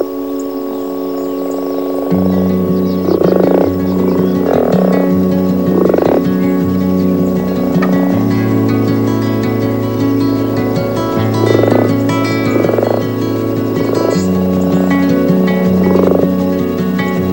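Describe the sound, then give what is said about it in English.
Male frogs calling at a breeding pond, deep resonant croaks repeating in a loose rhythm every second or two over a continuous low droning chorus. “And then it's the calls of the male that lure them in. In a pond, male frogs' vocal sacs expand.”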